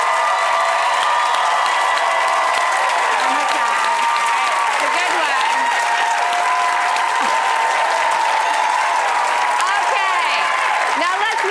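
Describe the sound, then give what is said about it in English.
An audience applauds and cheers for a contestant at a live creative-challenge show, producing a dense, loud, unbroken wash of clapping and shouting that holds steady for the whole stretch. “All right, everybody, let's make some noise for Mikkel if you're loving his style.”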